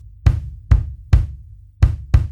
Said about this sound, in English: One of the 2 pieces would be the bass drum. That's the biggest drum that sits on the floor, and it's played with your foot. It sounds like this.